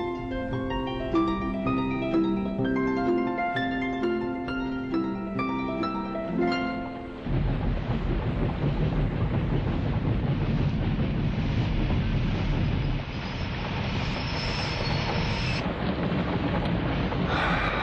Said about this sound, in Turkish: Ne yağmur.